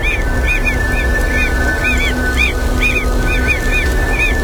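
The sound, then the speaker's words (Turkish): Mockingbirds calling in a forest: many short, bright chirping notes in quick repeated series, ringing clearly over a steady background hiss. “Alaycı kuşlar.”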